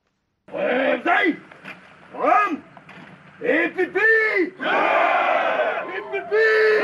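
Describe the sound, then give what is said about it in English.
Some 400 Cameroon gendarmes sing together on arriving in Bamenda from Yaoundé. Their loud massed voices come in chanted phrases separated by short breaks, ending in a longer sustained line. “This is the sound of 400 Cameroon gendarmes singing as they arrive in Bamenda from the capital Yaoundé as they vow to defend the country's territorial integrity.”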